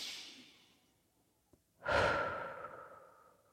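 A slow, deep breath taken in a guided calming exercise: a faint drawn-in breath, then a longer, louder sighing exhale that gradually fades, with no talking.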